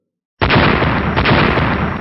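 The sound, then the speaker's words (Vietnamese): Loud explosion from a powerful magical attack on a white protective barrier in a fantasy battle. It bursts in suddenly after a moment of silence and continues as a dense, roaring rumble to the end. “Liên tiếp truyền đến tiếng nổ động trời”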